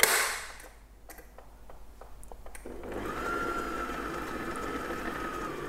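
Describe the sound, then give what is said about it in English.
An electric mixer slowly blends banana bread batter with flour and baking powder: a few light clicks and taps give way to a steady, faint whirring motor hum that continues to the end. “And then I'm adding in my dry ingredients. So the flour and baking powder, and I'm just adding it all. And I'll just let it mix really slowly.”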